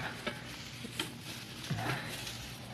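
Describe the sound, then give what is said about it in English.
Green bush branches being stuffed into a wood stove make faint, continuous rustling and crackling, broken by a few soft knocks and scrapes. “the kind that make a lot of smoke when they burn. Hey, yeah, plenty on these bushes right outside the window here. Now, I'll just stuff them in the stove.”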